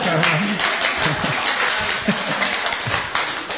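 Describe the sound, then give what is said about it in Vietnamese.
A church audience claps hands, a thick, continuous patter with voices mixed in underneath. “Ừ, vỗ tay nghe coi.”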